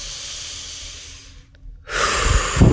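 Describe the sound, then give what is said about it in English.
A deep breath: a faint, airy hiss, a short silence, then a loud rushing breath that swells toward the end. “I invite you all now to take a deep breath.”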